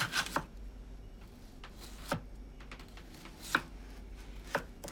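A knife chopping food on a board, thinly slicing peeled potatoes for a flatbread. A few sharp, fairly faint taps come at an irregular, unhurried pace, with no talk.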